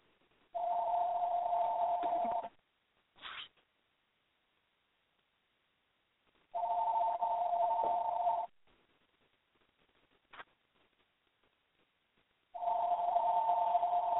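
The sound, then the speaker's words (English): A telephone rings in the background as three long, steady electronic ring bursts at an even mid pitch, evenly spaced, with brief faint blips in the gaps and no talking. “I have an interruption in the background, a phone call. Let me let it play itself out.”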